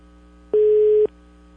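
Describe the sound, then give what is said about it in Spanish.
A single steady electronic telephone beep, held for about half a second, sounds on a phone call that went unanswered and went to voicemail. The tone is clean and mid-pitched, with quiet line hiss before and after. “Buzón de voz. me mandó al buzón, por no decir otra parte.”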